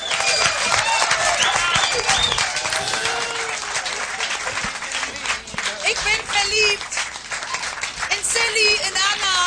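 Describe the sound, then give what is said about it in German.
Sustained applause from an audience after a band's performance, dense clapping that carries on throughout with scattered cheering voices mixed in. “noch ein bisschen Applaus”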